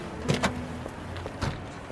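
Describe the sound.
Car door sounds as a passenger climbs out of a car, with a few short clunks and thuds over a faint low hum.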